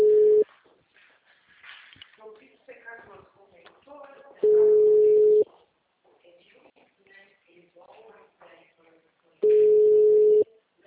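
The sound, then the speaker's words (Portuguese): Telephone call tones sound as a call is placed: three steady one-second beeps at a mid pitch, spaced about five seconds apart, with quieter talk in between. “Vou te ensinar como é que faz essa ligação.”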